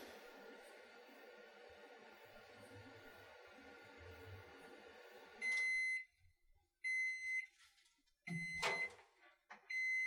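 A microwave oven melting butter runs with a steady low hum, then stops with a few short, high-pitched electronic beeps separated by brief gaps.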